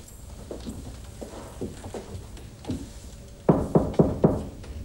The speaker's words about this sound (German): Sie klopfen beim Doktor an